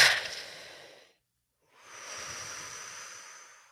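Breathing exercise through the mouth: a loud airy breath fades out, and after a brief silence a second, longer and steadier breath of soft rushing air follows. No talking.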